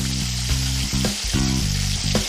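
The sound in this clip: Steady sizzling of an egg-filled dough pastry frying in a pan, its centre filled with beaten egg seasoned with soy sauce. A few brief knocks break the continuous, even hiss.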